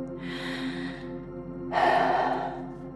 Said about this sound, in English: join me if you can by taking three deep breaths. Here we go. One.